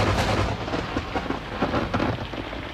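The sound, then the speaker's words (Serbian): Heavy rain pours down in a dense, loud, constant wash, with deep thunder rumbling low underneath throughout. “Pada teška kiša. Pada, leti i survava se sa nebesa.”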